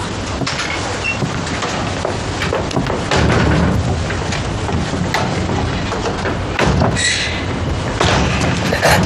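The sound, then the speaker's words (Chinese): Firecrackers being set off, a dense, continuous barrage of sharp crackling bangs and thuds that runs loud and unbroken through the whole moment, with a few heavier booms standing out. “别动嘴了，出来放鞭炮。”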